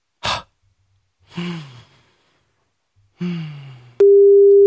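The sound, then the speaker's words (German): A phone's outgoing call tone after the call button is pressed: a steady, loud single-pitch tone begins near the end, preceded by a short sharp burst and two breathy sighs. “Und drücke jetzt auf Anrufen.”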